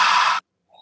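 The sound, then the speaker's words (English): A person drawing a deep breath in during a laughter exercise, a short, loud, airy hiss lasting under half a second that cuts off abruptly into near silence. “So I want you to just take a deep breath in like this.”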